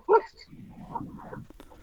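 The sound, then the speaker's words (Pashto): A dog gives a single sharp bark at the very start, loud and brief. After it comes a quieter, low, rumbling stretch of sound. “دا خو سپی غاپی ها او بس”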